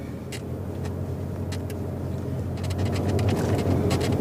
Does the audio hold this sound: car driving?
yes